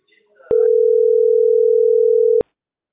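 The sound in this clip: A telephone line tone sounds after a phone call is abruptly cut off. It is a single steady, mid-pitched tone holding evenly for about two seconds, with a brief trace of voice just before it begins.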